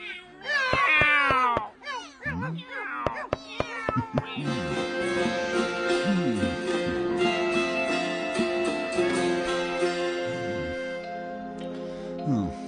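A cat meows several times, with drawn-out, wavering cries in the first few seconds, followed by a dense, steady layer of sustained tones.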